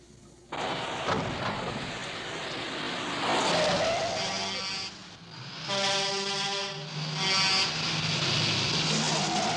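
A car engine roars while racing a truck in a film chase scene, a loud sustained drone with whining harmonics that dips briefly midway and then surges again.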